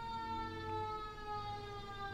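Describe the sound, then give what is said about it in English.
Emergency vehicle siren outside: a steady, faint wailing tone with a layered harmonic sound and a slight downward drift in pitch, heard alone without talk over low background rumble. “I mean, honestly, the amount of sirens, like.”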